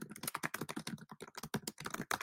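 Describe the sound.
Fast, forceful typing on a computer keyboard: many rapid, sharp clicks in uneven bursts with brief pauses, heard alone.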